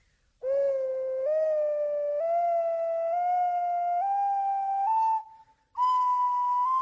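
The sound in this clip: A beginner plays an ocarina, holding a series of clear whistling notes that climb step by step in pitch. A short break comes before the final, highest note.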